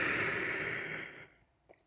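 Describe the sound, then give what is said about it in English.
A person taking a deep breath during a calming breathing exercise, heard as a long, airy exhale that starts full and fades away over about a second, followed by a brief faint rustle. “But first, I want us to take a deep breath.”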